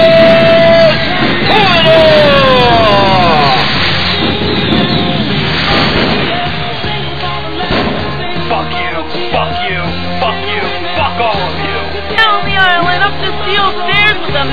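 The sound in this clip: A wrestling crowd cheers, yells and whoops as a wrestler enters the ring, a loud, sustained roar of voices with shrill shouts rising over it and steady babble underneath.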